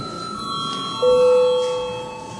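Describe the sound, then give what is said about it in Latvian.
A bell signal rings in a parliament chamber to call members to a vote on a pension law amendment. A steady, sustained ringing tone grows stronger about a second in and holds to the end, easing off slightly. “Lūdzu zvanu. Uz balsošanas režīmu.”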